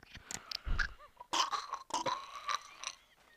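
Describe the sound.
Chewing and crunching on sweets: a quiet, uneven run of brittle crunches and wet chewing sounds, with several sharp bites and no talk.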